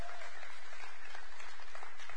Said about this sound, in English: And then clap for these guys and gals and tell them how much you love them.